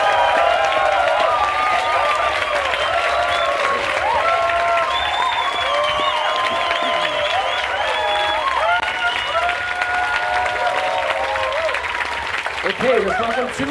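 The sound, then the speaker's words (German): Loud, sustained audience applause with cheering voices at a live show, greeting the Wetterfax bet contestant; dense clapping continues evenly throughout, with whoops and shouts rising above it. “Applaus für unser Wetterfax.”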